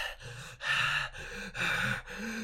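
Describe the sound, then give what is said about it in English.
A voice imitates loud, heavy breathing with a few harsh, rasping breaths in a steady rhythm. Each breath is drawn out and separated by brief catches, with no words. “Harry is breathing really fucking loudly. The loudest mouse underneath breather. He's just sitting there going”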